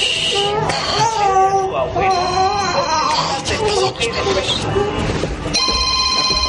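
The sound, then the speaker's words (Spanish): A baby whimpers in a carrycot while a woman comforts it, with fretful, wavering cries that rise and fall in short bursts throughout. “La mujer consuela a un bebé que lloriquea dentro de un capazo.”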